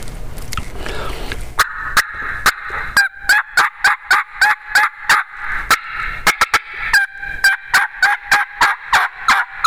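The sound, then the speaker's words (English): Turkey yelps and cut notes on a hand-operated turkey call, demonstrated at a hunting convention seminar: many sharp, evenly spaced raspy notes in a quick, steady rhythm, loud and alone after a short stretch of noise at the start. “I'm going to light cut at him a little bit, and maybe get that faster, listen to the rhythm of the yelp here. I'll pick up the rhythm of the yelp, try to get his attention, get him excited.”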